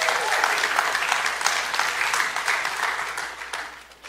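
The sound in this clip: Audience applause welcoming a speaker onto the stage: dense, steady clapping from a large crowd that holds at an even level and tapers slightly near the end.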